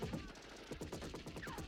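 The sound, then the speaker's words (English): Fully automatic gunfire from a movie scene, a gunman spraying a lawn: many rapid, fairly quiet bursts that run together in a continuous rattling stream. “There's one guy shooting a bloody fully automatic gun. I think they know where he is. He's just spraying the lawn.”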